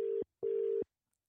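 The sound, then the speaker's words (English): Ringing tone of an outgoing phone call: a steady mid-pitched tone in two pulses, a short one and then a longer one, followed by silence. “So I will dial them now and hopefully pick up and we can rip into it.”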